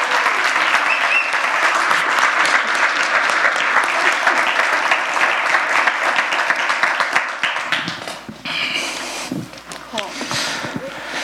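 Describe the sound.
Sustained audience clapping welcomes a young adult speaker onto the stage at a church youth message. It stays loud and thick for several seconds, then thins out and gives way to talking near the end.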